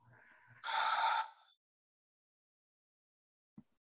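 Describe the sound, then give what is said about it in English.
A group exhales deeply together during a guided breathing exercise, heard as one breathy rush of air lasting about a second after faint soft sounds. Near-silence follows, broken by a single tiny click. “So just emptying all of the air that's in your lungs. And together we inhale. And exhale to release.”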